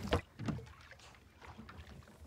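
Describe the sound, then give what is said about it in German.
Oars working a rowing boat on a coastal lagoon: two sharp splashing strokes close together at the start, followed by softer, quieter water sounds. “Nun müssen die Männer für alle Fälle auch noch das können. Rudern.”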